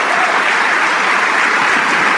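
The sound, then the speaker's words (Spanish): Steady, dense applause from a church audience during a worship service, a loud continuous wash of clapping that holds even from start to finish with no voices standing out. “Vamos a darle un aplauso al Rey de Reyes.”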